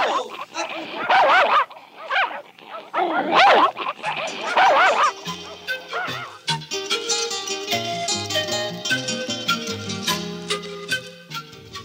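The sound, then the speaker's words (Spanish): A pack of dogs barks and yips while chasing people, with excited shouting voices over the barking; partway through, music swells in and carries the rest over scattered yelps. “O nos van a comer vivos todos los perros que vienen allí.”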